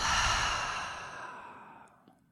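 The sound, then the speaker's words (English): A long, slow breath out through the mouth during a guided seated breathing exercise, soft and airy, fading gradually over about two seconds. “take a full breath in through the nose. And out through the mouth.”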